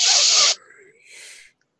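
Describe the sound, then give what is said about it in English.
Forced breaths are pushed out through the teeth, mouth and nose during a voice exercise. A loud, strong hiss lasts about half a second, then a softer, shorter breathy hiss follows after a pause. “Elbows back. Teeth. Force breath. Mouth, nose.”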